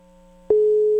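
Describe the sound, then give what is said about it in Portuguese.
A telephone line tone sounds while someone places a call to a person. It begins abruptly halfway through as a loud, steady, continuous mid-pitched tone that holds unbroken to the end, with no talking. “Tá, deixa eu ligar pra ele aqui, peraí, só um minuto.”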